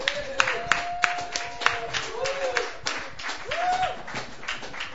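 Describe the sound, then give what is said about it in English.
Applause from an open mic audience welcomes a performer on a Sunday night: many dense claps with a few sharper peaks, mixed with some crowd voices. “Please put your hands together and welcome Sue Decker.”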